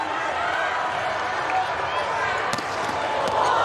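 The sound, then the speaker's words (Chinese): Sustained crowd roar at a Turkey volleyball match as Vargas serves an ace, with a sharp impact cutting briefly through the steady noise. “好发球，巴尔加斯发球直接得分”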